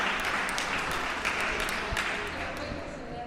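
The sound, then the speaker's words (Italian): An audience applauds at an evening event featuring a costume parade and an award ceremony. The clapping is dense and steady, loud and continuous from start to finish. “Altro applauso, quando c'è l'emozione c'è sempre un applauso.”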